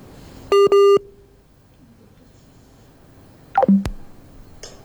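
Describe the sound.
Telephone tones while a radio station tries to reach a guest during technical trouble: two short, loud steady beeps close together, a quiet pause, then another quick cluster of tones with no voices.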